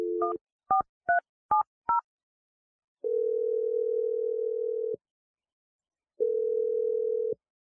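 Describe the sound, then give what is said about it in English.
A telephone number being dialled: five quick dual-tone key beeps in a row, then two long steady ringing tones separated by silence. “I'm gonna dial the number right now. Here we go.”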